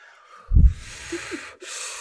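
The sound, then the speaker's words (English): Deep breathing in through the nose and out through the mouth: a sharp, loud nasal intake, then a long airy rush of breath, a brief pause, and another breath. “Deep breaths.”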